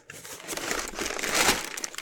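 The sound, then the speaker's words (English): Brown crinkly paper wrapping being handled, a dense continuous crackling rustle lasting about two seconds that swells louder past the middle before easing off, with no talking. “It's wrapped in brown crinkly paper, which is gonna be really good for the audio.”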